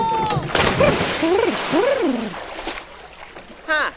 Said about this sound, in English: Well, I just installed a new pool in my backyard. After one day of practice, I bet I'll be the fastest swimmer in the whole county. Cannonball!